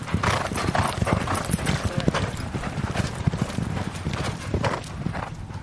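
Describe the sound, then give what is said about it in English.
Horse hooves clip-clopping as a ridden horse heads out to the gallop for a warm-up before canters: many quick, steady hoof strikes form a dense, loud, continuous rhythm throughout. “So we'll just go out to the gallop and we'll do a bit of a warm-up first and then we'll just do two canters on the gallop”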